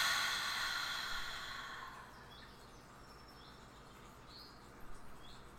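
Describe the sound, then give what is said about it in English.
A deep breath is exhaled during a guided breathing exercise, a soft airy hiss that fades away over about two seconds. A few faint, brief bird chirps follow in the quiet afterward. “Breathe in through our nose. Big, deep, beautiful breath in. And out.”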